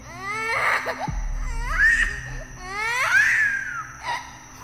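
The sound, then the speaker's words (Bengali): A baby suddenly crying out in a few short, high, wailing bursts with wavering pitch, separated by brief pauses. “আচমকা শুনলাম বাচ্চাটা একবার কোকিয়ে কেঁদে উঠল”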